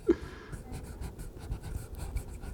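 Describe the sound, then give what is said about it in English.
Soft scratching of a pen writing, faint, continuous strokes with small uneven bursts and a tiny tap near the start, with no voices over it. “What should I write? Tell me bad words to write.”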